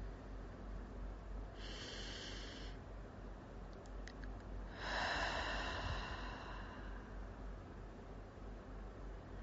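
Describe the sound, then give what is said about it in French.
Deep breathing during a guided meditation: two long, airy breaths, the second fuller and louder than the first, over a soft steady background hiss. “Je t'invite à respirer profondément”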